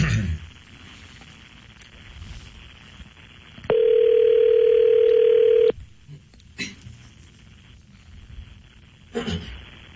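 Telephone ringback after a number is dialled: one loud, steady, mid-pitched tone lasts about two seconds over a noisy background with a few scattered clicks and knocks.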